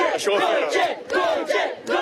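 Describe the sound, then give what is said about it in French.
A crowd gathered to see Pope Leo XIV cheers a young scout with loud, rhythmic chanted shouts that come in repeated bursts, separated by brief dips. “Gauthier est acclamé car il a parlé sur France Info. Beaucoup de joie autour de moi, naturellement.”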